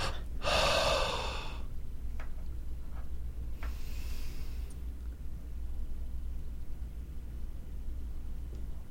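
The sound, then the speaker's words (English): A deep breath is drawn in with a loud, rushing inhale. A held, near-silent pause follows, then a softer, breathy exhale, all during a relaxation breathing exercise. “Do one more time. Inhale deeply. Hold, exhale.”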